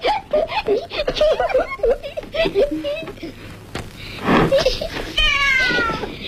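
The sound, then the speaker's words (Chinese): A small tabby cat meows in a classroom amid children's chatter and giggling, its whiny, rising cries mixed with voices and ending in a clearer, higher meow. “突然一只小花猫从里面窜了出来”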